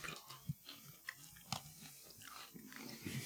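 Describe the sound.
Someone chews a stroopwafel with almond, making faint, crunchy bites and moist chewing in an uneven rhythm, with a few sharper crunches standing out.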